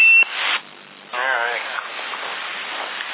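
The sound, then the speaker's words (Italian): A modified CB radio set gives its beep: a short electronic tone, then a hiss of radio static and a warbling tone over a narrow, band-limited noise floor. “Ehi, adesso vedi, va bip.”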